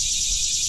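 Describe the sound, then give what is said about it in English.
Insects drone across a Louisiana swamp in a dense, high, continuous buzzing chorus that holds steady for a brief moment. “That is the sound of cool. Louisiana. It's swampy.”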